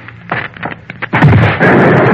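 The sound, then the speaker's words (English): Explosion of a rigged time machine: a few sharp, crackling bursts lead into a loud, sustained roaring blast of dense noise. “Things exploded. I'll switch off the current.”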